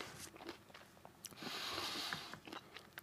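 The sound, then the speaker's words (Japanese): Someone eats a last spoonful of yogurt, producing faint, soft wet mouth sounds, small clicks and gentle smacking in quiet, irregular bursts, with no talking. “いや、めっちゃうまい。今ちょっと収録止めて全部食べきりたいぐらい。最後もう一口だけすみません。”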